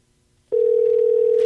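A telephone dial tone starts abruptly after half a second of silence, then holds as a loud, steady, unbroken single-pitch hum to the end.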